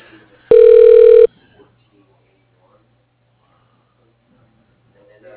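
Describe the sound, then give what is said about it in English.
A phone line rings as a call is transferred: one loud, steady electronic tone lasting under a second, then near silence. “Okay, I'll transfer you now.”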